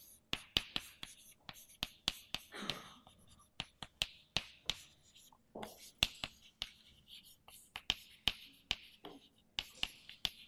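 Handwriting on a surface while someone writes out notes about molecular states, heard as many sharp, quiet taps and short scratches in an irregular, busy rhythm, with soft rustling between strokes.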